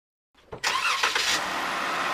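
A jeep engine cranks briefly, catches and settles into a steady, loud mid-pitched running roar.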